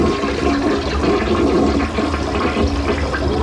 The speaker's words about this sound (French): C'est pas déjà assez bien tiré la chasse